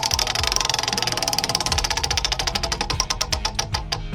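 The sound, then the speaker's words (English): A prize wheel spins for a game, making rapid ratcheting clicks over a low rumble. The ticks start fast and steady, then space out toward the end as the wheel slows. “you ready to spin the wheel? Let's do it. Here we go.”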